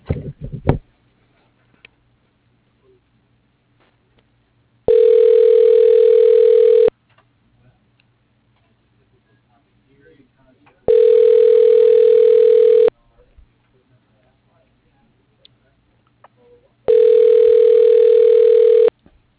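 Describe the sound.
Ringback tone on a phone line while a call is being transferred: three long steady beeps, each about two seconds, separated by roughly four seconds of near silence, with a faint click at the start.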